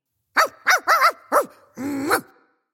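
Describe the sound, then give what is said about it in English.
A dog barks at the mailman: four short, sharp barks in quick succession, then a longer, drawn-out yelping bark, all loud and alone. “Sorry, that's my dog Melvin barking at the mailman.”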